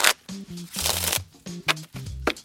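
Jovem Nerd playing cards being shuffled, with several crisp riffling bursts and snapping flutters of the deck in quick succession.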